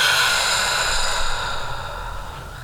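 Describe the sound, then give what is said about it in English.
A slow, deep breath in and out during a guided relaxation exercise: a long, airy rush of breath, strong at first and then gently fading toward the end, with no talk over it. “So if you can just take a deep breath in with me and breathe out.”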